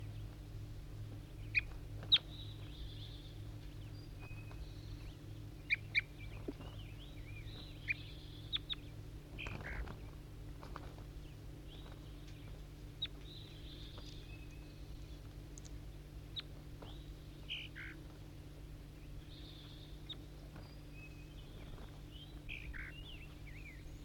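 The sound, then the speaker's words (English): A bird calls back and forth with a distant wild bird, giving many short, faint chirps scattered irregularly over a steady low hum. “Responding, I think, to a wild bird in the distance.”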